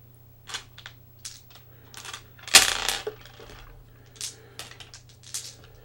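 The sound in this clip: A handful of eighteen dice rolled across a table during a war board game: scattered light clicks, then one louder clattering burst in the middle, followed by a few more sparse clicks.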